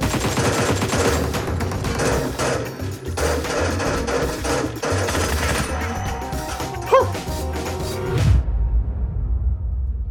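Rapid gunfire from a team-based shooter video game: dense, overlapping bursts of automatic fire run steadily for about eight seconds, then cut off abruptly, leaving a short fading tail.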